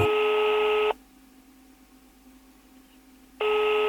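Telephone tones sound while a call is placed: a long, steady electronic tone stops, a stretch of near silence follows, then the same tone starts again and runs to the end. No voices are heard.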